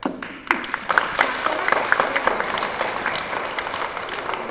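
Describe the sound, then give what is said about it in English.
Group of children clapping together in a quick, uneven patter of individual claps, moderately loud, starting briskly and continuing at a steady level. “Clap for her!”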